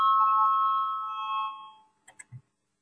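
An electric bell rings as a parliament chairman calls a vote: one bright, sustained tone lasting nearly two seconds, fading out and followed by a few faint clicks.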